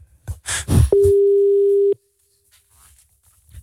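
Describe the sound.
A steady telephone tone sounds as a call is placed, holding one pitch for about a second after some brief clatter, then cutting off into near silence.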